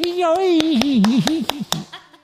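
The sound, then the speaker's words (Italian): A steady run of rhythmic hand claps, evenly spaced, plays under a person's wavering, sustained voice. “E ora un applauso. Sì, un applauso. Un applauso giapponese.”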